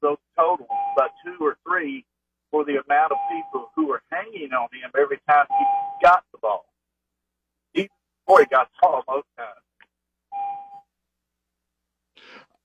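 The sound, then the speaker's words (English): A car seatbelt warning chime, heard over a phone line, sounds as a steady mid-pitched tone that repeats a few times at intervals beneath a caller's continuous talk. “is that the seatbelt chime that we hear in the background?”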